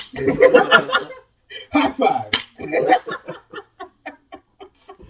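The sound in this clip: Hand slaps of a high five struck near a microphone: after speech and light chuckling, a run of sharp, quick smacks follows in an uneven rhythm, tapering off.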